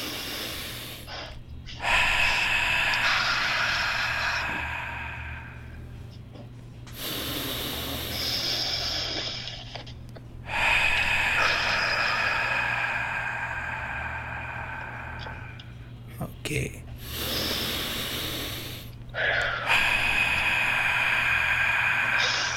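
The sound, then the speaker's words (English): Breath drawn in through the nose: several long, airy, hissing breaths, each lasting a few seconds, come one after another with short pauses between them. “And so we're going to inhale on the count of three. So 1, 2, 3, in through the nose.”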